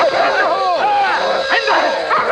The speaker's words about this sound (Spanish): Un perro corre hacia el prisionero